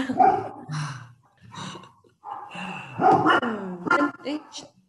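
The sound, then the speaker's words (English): Dogs barking: a run of loud, uneven barks, yips and whines in quick bursts with short pauses between them. “I'm sorry about my dogs, though. They're dying to bark here.”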